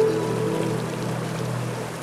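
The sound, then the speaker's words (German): Continuous rushing of a river through a green gorge at about 2000 metres in Morocco's Atlas mountains, an even wash of water noise with no breaks. “Ganz am Ende der grünbewachsenen Schlucht, durch die der Tessaoud-Fluss hindurchrauscht.”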